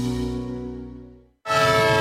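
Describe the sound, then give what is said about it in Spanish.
A departing train's horn sounds as a loud, sustained chord that slowly fades over about a second, falls briefly silent, then returns as a second strong, bright blast. “Un tren que se va.”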